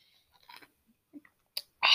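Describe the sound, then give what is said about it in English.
Soft mouth noises of someone taking a sip of water: a few faint wet clicks and slurps, then a short louder slurp and a final breathy burst. “That's the sound of me taking a sip.”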